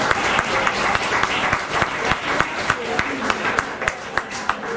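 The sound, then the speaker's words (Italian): Audience applause: loud, sustained clapping with regular sharper accents that give it a steady rhythmic pulse, holding at an even level throughout. “E anche si scatta l'applauso”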